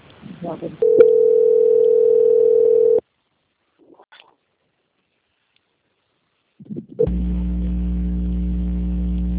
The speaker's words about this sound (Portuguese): Agora eu vou transferir o contato para o controle de qualidade que dará continuidade à sua contratação, ok?